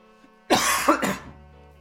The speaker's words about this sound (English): the fucking coughing, the smoke.